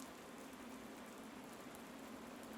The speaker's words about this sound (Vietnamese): Đã sang cuối ngày, lại thêm cơn mưa rả rích không ngớt, sự âm u càng lúc càng bủa vây lấy chốn linh thiêng.